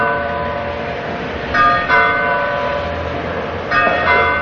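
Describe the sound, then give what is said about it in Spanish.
Church bells ring an alarm announcing the arrival of French troops in a town in 1808, with bright metallic strikes swelling over a steady low hum of ringing. “Al mismo tiempo, en la villa se escuchan las campanas de alarma que anuncian la llegada de los franceses.”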